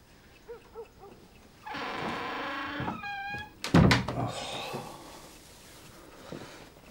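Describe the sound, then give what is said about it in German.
A door being pulled shut: a brief high creak, then a solid thump, with softer rustling before and after. “Machst du die Tür noch zu?”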